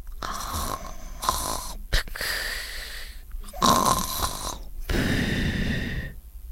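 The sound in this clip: A man snores while asleep under a tree, giving several long, loud, rasping snores with brief pauses between them.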